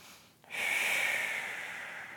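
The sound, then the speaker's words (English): A single long, airy breath for Pilates breathing, drawn sideways into the ribs, begins abruptly after a brief quiet moment. It holds as a steady, breathy hiss and eases slightly toward the end, with no talking. “I'm trying to feel like I'm breathing sideways again.”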